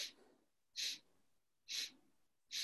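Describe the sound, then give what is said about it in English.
Short, breathy nasal exhalations during a slow breathing exercise: four soft hissing bursts about a second apart, the first trailing off at the start, each alone with near silence between. “And then you exhale through the nose.”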